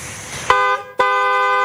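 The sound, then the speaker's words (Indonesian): A car horn honks twice, a short blast followed by a longer sustained one, loud and steady in pitch, after a brief burst of rushing noise. “Kok iso elu aku sing diklakson?”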